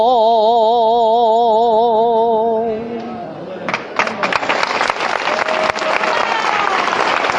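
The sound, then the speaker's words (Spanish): Crowd applause breaks out after a saeta sung to a Holy Week image of Our Lady of Tears during a Lunes Santo procession in Jaén. A wavering, vibrato-laden sung note ends, then dense, loud, sustained clapping follows. “Saeta, que aplaude el respetable”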